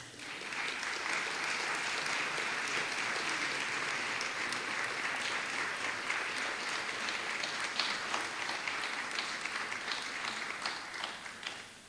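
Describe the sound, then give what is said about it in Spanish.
Audience applause welcoming a speaker at a conference on addictions: a long, even stretch of many hands clapping, fairly faint and steady for about twelve seconds, easing slightly toward the end. “Recibimos al señor Burton con un fuerte aplauso.”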